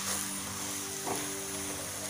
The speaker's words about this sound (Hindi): और ये देखिए घी से ये पराठा बहुत ही टेस्टी लगता है और फिर से हम इसे टर्न करेंगे और इस तरह से हल्का हल्का प्रेस करते हुए हमें इसे तैयार कर लेना होगा